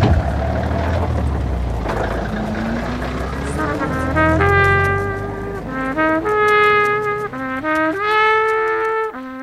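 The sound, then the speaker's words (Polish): A bus engine rumbles low, its note rising in several stepped surges like gear changes, loud and sustained throughout. “Jest mój autobus.”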